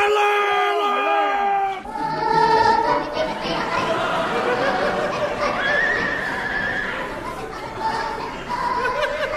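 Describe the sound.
A horse whinnies with a high, wavering cry for nearly two seconds, then a noisy crowd of chattering, shouting voices takes over and carries on steadily to the end.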